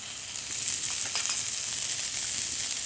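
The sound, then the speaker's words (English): Onions fry in hot vegetable oil, giving a steady, bright, crackling sizzle that stays fairly even throughout, with no talking. “we're going to add some vegetable oil and then start adding a lot of the aromatics and start building some flavor. All right, so what do you need to add first? We're going to start with some onions.”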